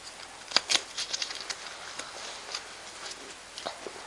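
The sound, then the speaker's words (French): Playing cards being shuffled for a game, heard as a few quick, faint papery riffle bursts near the start and then lighter scattered flicks, with no talk. “Attends qu'on mélange les cartes.”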